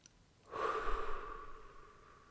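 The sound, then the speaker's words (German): A deep breath taken during a guided relaxation exercise: one long, soft, airy breath lasting nearly two seconds, quiet and alone. “Dann atme nochmal tief durch”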